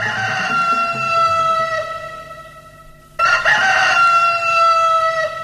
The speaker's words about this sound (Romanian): Au cântat cocoșii.